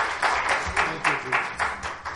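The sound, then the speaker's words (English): A church audience claps in unison in praise. The hand claps are firm and evenly spaced, forming a steady, regular beat with a slight lull near the end. “Give Jesus one more hand clap of praise.”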